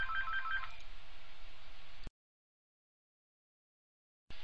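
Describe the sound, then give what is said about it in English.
A telephone rings in one short burst of about two seconds, then cuts to silence before noise returns at the very end. “Sorry about the phone ringing.”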